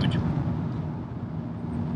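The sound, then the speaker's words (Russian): Steady in-car noise from a moving car: a constant low engine and road rumble with a soft hiss above it, even in level throughout, with no voices. “В машине не очень шумно, но тем не менее, интересно, что получится с этой записи.”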